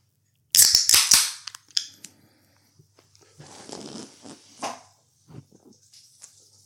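A beer can bursts open and foams over: a few sharp cracks and snaps come first, then a spreading fizzy hiss, with scattered small clicks and splashes trailing off.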